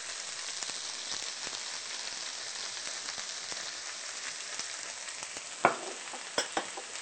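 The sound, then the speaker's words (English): Organic pumpkin sizzles in a hot pan while it is stirred. A steady, hissing crackle of frying runs throughout, and a few sharper knocks from the stirring come near the end. “After a couple of minutes, you can go ahead and add your organic pumpkin.”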